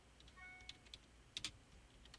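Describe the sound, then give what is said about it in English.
Typing on a computer keyboard: faint, scattered keystrokes tap irregularly, with a louder cluster of clicks near the middle and a few lighter taps after, with no voices. “Okay, I am typing away as you're talking.”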